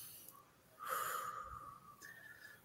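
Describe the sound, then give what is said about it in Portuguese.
A single faint, slow breath taken during meditation, with a soft nasal, slightly wheezy airflow that swells and then fades in an otherwise quiet setting. “Eu posso começar a meditar por segundos. Né? Eu posso eh, só respirar aqui.”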